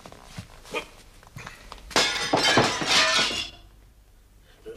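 Window glass smashed with a stone: after a few faint knocks, a loud, bright shattering burst erupts midway and rings with clinking shards for over a second before fading out.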